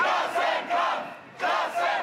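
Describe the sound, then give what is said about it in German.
Rhythmic chanting from a crowd of several thousand protesters at a Kiel demonstration against austerity cuts to pensions, health and labour, the loud massed voices rising and falling in repeated swells with brief dips between phrases. “Auch in Kiel haben sich laut Polizei mehrere tausend Menschen versammelt, um gegen die Sparpläne bei Rente, Gesundheit und Arbeit zu demonstrieren.”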